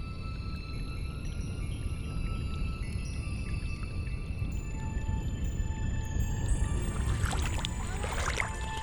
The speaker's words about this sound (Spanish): estoy grabando el sonido del agua